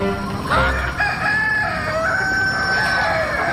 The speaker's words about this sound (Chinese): 咁恶嘅鸡公